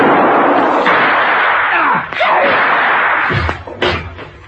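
Gunshot in a radio drama: a short, heavy, slam-like bang near the end, with a quick follow-up jolt, breaking a dense, noisy stretch of background sound.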